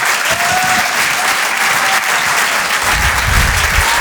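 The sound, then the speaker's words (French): Dense audience applause greets two comedians as they walk on stage at a comedy show, with steady, loud clapping and crowd noise sustained from start to finish. “Faites du bruit s'il vous plaît pour Gilles Alma et Ben.”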